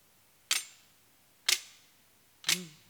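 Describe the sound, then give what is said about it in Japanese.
A handmade sword carried on the shoulder rattles as the wrist is snapped, its loose guard giving three crisp metallic clacks. The clacks are evenly spaced about a second apart and fairly quiet against a still background. “カシャンカシャンっていう音はこう手首をスナップしてあの音を出してるんですけど”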